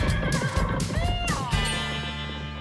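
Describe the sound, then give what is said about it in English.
A horse named Tony neighing loudly as its rider spurs it on, a wavering whinny that rises and falls in pitch over a continuous background. “Attaboy, Tony. Now giddy up! Let's ride!”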